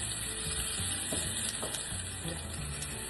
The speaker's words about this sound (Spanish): Rapidito la cebolla, es un cuarto de cebolla, bajamosla. Ay, huele.